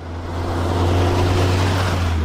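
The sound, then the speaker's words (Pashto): Engine drone of a passenger vehicle travelling a rough, bumpy dirt road from Baghran district toward Lashkargah, a steady low rumble with layered hum that holds continuously and fairly loud throughout, with no voices. “دا د باغران ولسوالۍ ته پر غځېدلې کنډ او کپر سړک د روان هغه کومک لرونکي بایپور موټر ژغ دی چې اوس مهال مرکز لشکرګاه ښار ته د باغران ولسوالۍ څخه راورسېدلی.”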